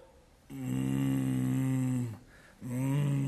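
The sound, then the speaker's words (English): A person groans aloud in prayer. There are two long, low, steady vocal groans, the second beginning after a brief pause. “the Spirit himself makes intercession for us with groanings which cannot be uttered." What do you mean? Well, as I'm standing there before God by myself and I don't know how to pray, I can sit there and go,”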